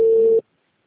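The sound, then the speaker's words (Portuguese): A telephone busy signal: one short, steady beep at a fixed pitch, fairly loud and lasting under half a second, then abrupt silence. “Chamando ainda. O número está ocupado.”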